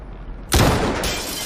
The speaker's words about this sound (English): Team One, this is Command. Take your shot. Repeat. Take your shot.